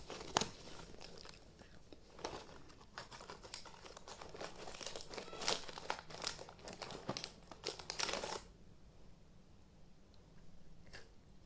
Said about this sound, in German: Mm, lecker Mikado-Stäbchen.